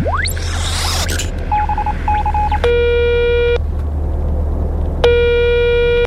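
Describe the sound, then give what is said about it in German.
Telephone call being dialed: a quick rising sweep, a few short dialing beeps, then two long buzzy electronic tones separated by a pause, all over a constant low hum. “Okay, warte mal, ich rufe mal Ava an. X-Funker, bitte parallel zu Yvonne einmal Ava anrufen von der Erde.”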